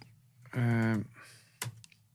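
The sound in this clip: Typing on a computer keyboard: a few quick, quiet key clicks follow a short burst of voice, set against soft background noise.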